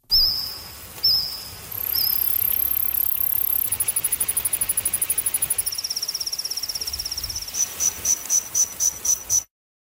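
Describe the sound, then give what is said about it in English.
Recreated songs of Jurassic-era insects ring out as high, pure chirps with no talk: a few short chirps, then a sustained piercing tone, a rapid pulsed trill, and finally a run of separate, evenly spaced chirps. “a new study that recreated the sounds made by various species of insects during the Jurassic era”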